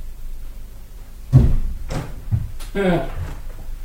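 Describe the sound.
A door is opened with a few dull knocks and clunks from the latch and wood, and a voice is heard briefly over the final sounds.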